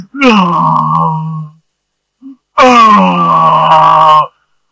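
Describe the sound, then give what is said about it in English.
A man's voice imitates another man wailing on the floor: two long, loud, sustained moaning wails separated by a short pause with a small sound between them. “And he's on the floor. He's on the floor like this, and he is wailing.”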